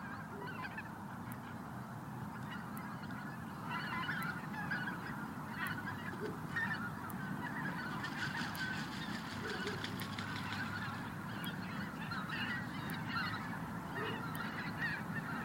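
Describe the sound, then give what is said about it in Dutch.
A large flock of geese honks continuously as it flies over an outdoor microphone above the Naardermeer. Many overlapping nasal honks form a steady, busy chorus from start to finish, with no talking. “Over het bos daar in de verte zie ik nu ook hele grote groepen vogels opstijgen. Ik denk dat het de ganzen, je hoort ze ook.”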